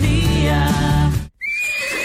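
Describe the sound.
A horse whinnies loudly in a long, quavering neigh, then falls briefly silent before a thinner, high-pitched call follows.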